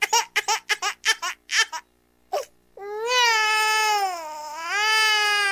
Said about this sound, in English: Start the crybaby sound effect.